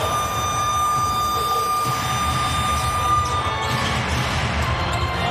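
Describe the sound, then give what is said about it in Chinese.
A basketball is dribbled during a game. Repeated low bounces sit under a constant loud background roar, with no talk. “好的，这球运球有点粘球了啊。”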